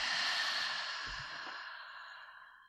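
One slow exhale through the mouth during a guided breathing exercise, a breathy rush that starts full and gradually fades away over nearly three seconds, with no talking.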